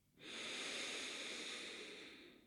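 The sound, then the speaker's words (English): A single long, deep breath drawn in during a guided breathing exercise, a steady, fairly loud airy rush that swells quickly and holds for about two seconds, gently easing off at the end. “Full deep breath in.”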